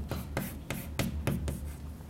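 A formula being written by hand, heard as a quiet run of several short scratchy strokes at a fairly even pace, with brief pauses between them and no talking.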